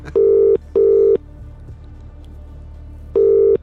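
Touch-tone beeps of a telephone dialing a number: three loud, steady tones, two close together and a third after a pause, over a low hum.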